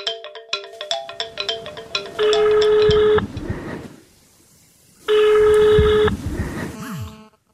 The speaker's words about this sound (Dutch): Ik ga hem bellen.